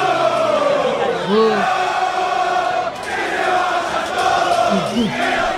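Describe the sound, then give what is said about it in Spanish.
A crowd of San Lorenzo football fans chants after a 3-0 loss to Defensa y Justicia, many voices roaring together loudly and steadily, with one short dip near the middle. “Si te parece, escuchamos un poquitito a los hinchas de San Lorenzo después del partido con Defensa.”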